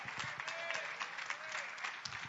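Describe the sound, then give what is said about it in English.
Audience applause welcoming a speaker to a talk about marriage: a dense, steady wash of many hands clapping that holds at an even loudness throughout, with voices mixed in among the clapping. “would you put your hands together? Welcome him as he comes to talk to us”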